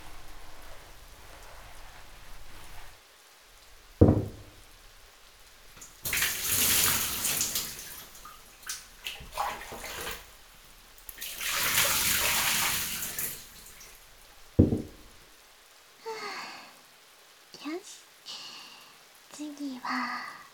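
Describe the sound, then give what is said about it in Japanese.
Running water rinses a person during bathing, pouring in two broad splashing bursts separated by quieter stretches, with voices talking around them. “一回流しますね。”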